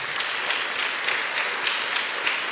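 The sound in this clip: An audience at a church sermon applauds to welcome a speaker: dense, even clapping from many hands holds at a steady loud level without a break.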